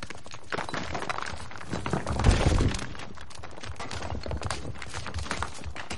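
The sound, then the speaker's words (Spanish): Apes scramble over a collapsed temple and shove rocks aside, making a dense, continuous mix of scraping, rubble shifting and dull thuds, with a louder burst of heavy knocks partway through. “Todos los simios corren hacia la parte derrumbada. Suben a la parte alta y comienzan a apartar rocas.”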